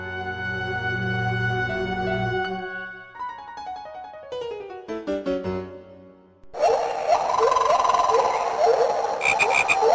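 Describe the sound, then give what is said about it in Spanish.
Croaking of a green toad: a dense run of rapid, rasping calls fills the last few seconds. Before it come sustained tonal notes that step downward. “El sapo verde. Ese sapo verde se esconde y se pierde”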